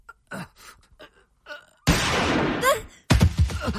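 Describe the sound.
Gunshots ring out in a tense dramatic scene, a loud sharp blast with a lingering tail following brief speech, then another burst.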